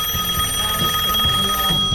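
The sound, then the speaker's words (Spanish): A phone rings in a studio during a live show: a steady, bright electronic ring holds through the two seconds over a pulsing low rhythm. “Me están llamando, espera. ¿Está sonando?”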